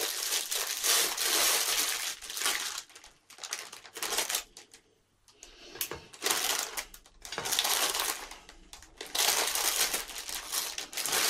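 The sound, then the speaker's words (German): Crinkling plastic packaging being unwrapped from hot dog bread rolls, with many loud, rustling, crackling bursts separated by short quiet gaps. “Und wir können uns in der Zwischenzeit auf andere Sachen konzentrieren, wie beispielsweise die Brötchen auspacken.”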